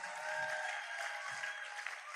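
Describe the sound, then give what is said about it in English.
Church audience clapping on the pastor's request: a steady, fairly faint wash of many hands clapping together, held evenly for the whole stretch with no voices rising above it. “Do you still love me, church? If you love me, clap for me.”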